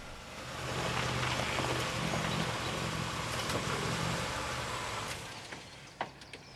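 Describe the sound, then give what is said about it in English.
A car drives through gates and up a long drive with a steady rumble that swells, holds for several seconds, then fades, followed by a few faint clicks. “He drives through the gates and up the long drive.”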